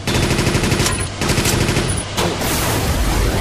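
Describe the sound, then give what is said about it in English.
Rapid machine gun fire in a video game, loud and dense, in three long bursts separated by two brief gaps. “Speed machine gun. Good grief. This is crazy.”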